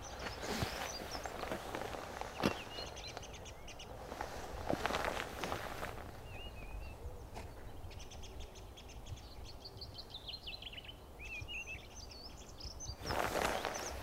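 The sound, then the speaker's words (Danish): A small bird in a treetop sings a fast, slightly creaky song, its quick chirps faint against steady footsteps and rustling that run through the whole recording. “i et af træerne lige herovre til højre sidder der en lille fugl oppe i toppen, som har sådan en meget hurtig, øh, lidt knirkende sang.”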